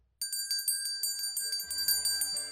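A little notification bell sound effect sets off abruptly into rapid, bright tinkling strikes that ring on in quick succession, with a low tone joining partway through.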